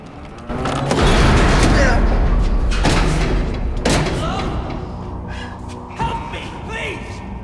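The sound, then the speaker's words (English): A door mechanism clanks and the door swings shut at the end of a corridor, with several heavy thuds and booming knocks over a dense mechanical rumble, loudest near the start. “Jeff tries to open it, which triggers some sort of mechanism inside, and once he's through, it swings shut behind him again.”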